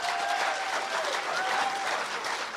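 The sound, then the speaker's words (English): Audience applause welcoming a speaker, with dense, steady clapping that holds at an even level throughout. “So, I wonder if we just put our hands together and give Lisa Harrison a really, really warm welcome.”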